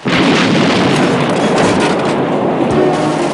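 Gunfire in a film scene, a police shootout with punks firing from behind the collapsed walls of a derelict house at officers by their squad car. A loud, dense, unbroken barrage of shots runs through the whole stretch.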